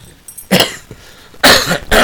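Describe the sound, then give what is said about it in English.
A few harsh, loud coughs break out in quick bursts, each a short rough blast of noise with quieter gaps between them and no talking. “excuse me, you hear that cough.”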